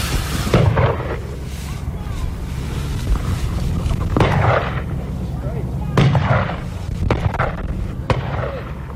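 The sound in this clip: Gunshots during a bison hunt: several sharp, booming reports at irregular intervals, sounding over a steady rumbling background.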